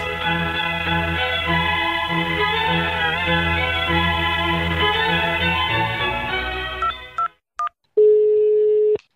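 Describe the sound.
Telephone dialing to call the authorities: a long, steady droning harmonic tone gives way to a couple of short beeps, then a steady electronic tone.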